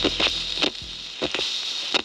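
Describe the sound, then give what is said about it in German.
A record player needle stuck at the end of the groove, producing a looping pattern of soft crackly bursts that repeat at a steady, slow rhythm over a constant hiss. “Nee, es sind keine Morsezeichen von Außerirdischen. Es ist die Nadel einer Schallplatte, die am Ende der Rille einfach hängen blieb.”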